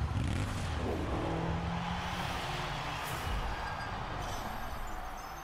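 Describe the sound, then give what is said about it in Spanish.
Engines of drag racing cars and a motorcycle in a racing video game trailer make a dense, continuous roar that stays loud and steady throughout, easing slightly at the very end. “Es un tráiler normal, bueno, con carreras de drags. Ahora aparece la moto.”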